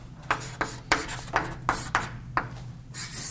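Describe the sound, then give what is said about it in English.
A marker or chalk scratches out the strokes of a letter W on a board in a series of short, sharp scraping strokes with slight pauses between them. The sound is faint and comes alone over a low steady hum. “I'm writing this W is a bit different from that one, just to not confuse you”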